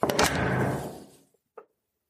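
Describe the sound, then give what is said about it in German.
The front door of a family home closing: a broad, heavy impact that rings out and fades over about a second, followed by a short, soft knock, all fairly quiet. “Und dann ist es soweit. Wir schließen ein letztes Mal unsere Haustür.”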